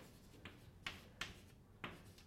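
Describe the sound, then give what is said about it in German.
Faint scratching of someone writing down an equation: four short strokes at uneven intervals over a quiet background hiss. “das d nach dt da, ich schreibe einfach jetzt diese Gleichung ab”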